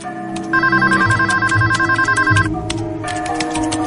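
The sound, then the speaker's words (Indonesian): An office telephone rings with an electronic warbling tone in rapid, repeated pulses, steady and fairly loud, pausing briefly before the ring pattern resumes. “Tak lama kemudian, telepon kantor berdering.”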